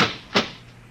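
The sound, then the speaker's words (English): A single knock on a door: one short, dull thump that stands out clearly against an otherwise quiet background. “There was a knock on the door.”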